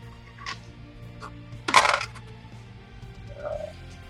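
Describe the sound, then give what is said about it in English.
Virtual dice rattle across a table in a video game: a few faint, brief clicks, then a denser clattering burst, with quieter ticks afterward. “That was a horrible roll. The dice are stuck on the virtual table.”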